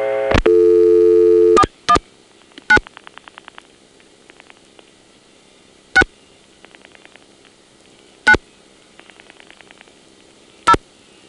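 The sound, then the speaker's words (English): A telephone register sender dials 93 and a seven-digit number: a steady tone opens, then loud sharp switching clicks punctuate faint rapid pulse trains of outpulsed digits. “The register sender will dial 93 plus the 7-digit number, which in this case is my own.”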